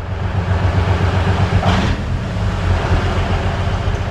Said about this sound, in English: Soldiers from the Bilatserkva Air Defense Regiment are driving their anti-aircraft missile system called OSA into cover. This giant Soviet armored vehicle on wheels is a lucrative target for Russian drones.